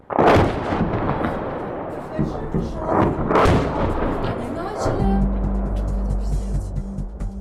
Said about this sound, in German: So hört es sich an, wenn nebenan eine Bombe einschlägt. In diesem Fall handelt es sich um eine Bombe, mit der Aserbaidschan sein Nachbarland Armenien angegriffen hat